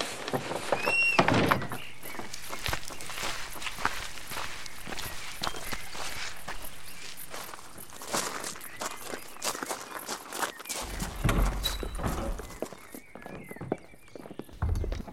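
Footsteps walk into a house, many steps in a fairly steady rhythm with scattered knocks and clatter between them, moderately loud and continuous, with no talking.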